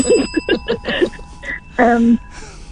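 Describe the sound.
A bell rings, its high metallic tone sustained steadily through the whole stretch while a person talks over it.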